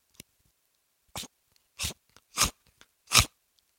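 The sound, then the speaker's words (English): A person's mouth imitates a zombie's teeth crunching together, a handful of sharp, dry clacks spaced about half a second apart and growing louder, with silence between them. “you can hear in the theater the way that the teeth crunch together.”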